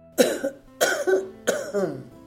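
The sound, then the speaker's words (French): A man coughs three times in a row. Each cough is a harsh, fairly quiet burst with a short rasping tail, and the three are evenly spaced, with no talk around them. “Et il commença en ces termes, après n'avoir toussé que 3 fois au plus.”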